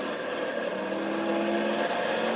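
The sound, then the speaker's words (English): A race car drives back into the pit lane at a test track, its engine a steady, dense drone with a sustained tonal hum and no distinct revving. “a lot of concentration here to get this car back into the pit lane”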